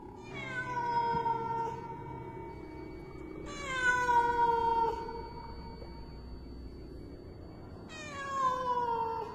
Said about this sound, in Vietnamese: Ra đến ao chùa, con mèo đứng đó nhìn chăm chăm xuống mặt nước, kêu lên những tiếng thê lương lắm.